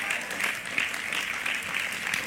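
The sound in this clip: Audience applause fills the whole stretch with steady, dense clapping from many hands, moderately loud and without pause.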